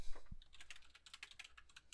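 Typing on a computer keyboard: many quick, faint key clicks in an irregular rhythm, continuing through the whole two seconds.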